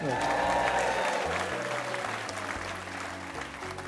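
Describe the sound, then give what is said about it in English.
Applause from a live studio audience at a show held in Pensacola's Museum of Commerce. Many hands clap in a steady, loud wash that eases slightly toward the end. “Give yourselves a big hand.”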